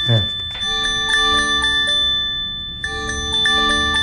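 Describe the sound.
An earthquake alert sounds from a mobile phone in Colombia: loud, bright, sustained bell-like tones in two bursts separated by a brief gap.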